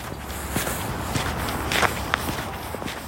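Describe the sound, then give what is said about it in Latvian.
Footsteps walking along narrow local paths deep in a forest park. The steps form a steady, continuous run of soft crunches over a constant background hiss, with no voices. “Ejam pa vietējiem zināmām taciņām dziļāk meža parkā, tuvāk tai parka daļai, kas robežojas ar Sarkandaugavu.”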